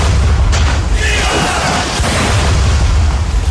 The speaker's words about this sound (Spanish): El combate comenzó con un intenso intercambio de artillería.